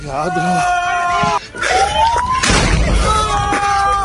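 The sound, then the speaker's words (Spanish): Explosion from an Israeli army airstrike on Aitou, a farming and market town near Tripoli, Lebanon, the second strike after an earlier bomb: a sudden loud, broad blast midway through, with people shouting and screaming before and after it. “Este era el momento, tras una primera bomba, que un vecino grababa el segundo ataque.”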